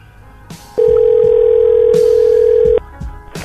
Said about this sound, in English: let's call a Starbucks from Cape Canaveral. I mean, the phone link's through Cape Canaveral.